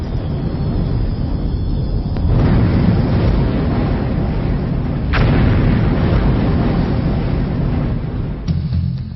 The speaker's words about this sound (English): Magnificent mountains explode as a result of the volcanic pressure beneath them.